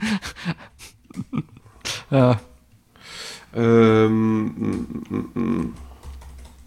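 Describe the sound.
Rapid clicking of typing on a computer keyboard, partly buried under conversation and audible breaths, with bursts of keystrokes between the voices.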